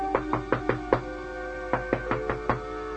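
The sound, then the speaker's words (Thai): Knocking loudly on an inn door: two quick groups of five sharp raps separated by a short pause, over a faint steady hum. “ไปกันเถอะเคาะดังหน่อยคนดูแลโรงแรมอาจจะเข้านอนแล้วก็ได”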